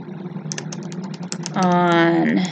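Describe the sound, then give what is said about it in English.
Computer keyboard keys clatter in a quick, uneven run of many light taps, then a voice comes in over the last second. “I'm actually typing this in right now.”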